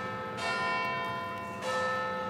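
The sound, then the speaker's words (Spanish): A large clock tower bell chimes, struck twice about a second apart. Each strike rings out in a loud, rich, sustained metallic tone whose overtones linger and overlap. “podemos pensar en el timbre del antiguo tranvía que cruza Lisboa, o en la importancia que el sonido del Big Ben tiene sobre la ciudad de Londres.”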